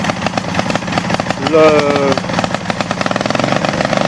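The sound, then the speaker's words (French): A reactor and its air bubbler start up and run, giving a steady mechanical hum with rapid, regular pulsing that grows louder partway through and then keeps a fast, even rhythm. “Donc le réacteur est bien en marche. Le bulleur fonctionne.”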